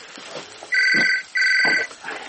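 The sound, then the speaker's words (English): A telephone rings in the middle of the night in two long, loud bell bursts separated by a short pause, with only faint background noise before, between and after the rings. “Who the hell's ringing at 3:30 in the morning?”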